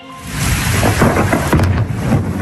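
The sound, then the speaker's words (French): Thunder rumbles through a nighttime thunderstorm at Saint-Jean-de-Luz in the Pyrénées-Atlantiques, a loud, deep continuous roll with a hiss of rain underneath, swelling slightly midway and holding strong to the end. “Le tonnerre a grondé la nuit dernière à Saint-Jean-de-Luz dans les Pyrénées-Atlantiques.”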